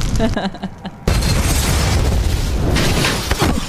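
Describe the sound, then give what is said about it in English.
An SUV engulfed in flames explodes in a car insurance commercial: a sudden loud boom after about a second, then a sustained roaring rumble that lasts to the end. A brief voice is heard before the blast. “Is that pretty good explosion and everything for a commercial,”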